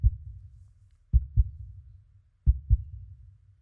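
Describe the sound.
A heartbeat with deep, low thumps: one beat at the start, then two clear lub-dub pairs. Each pair is a strong thud followed quickly by a second, with quiet gaps between, heard alone.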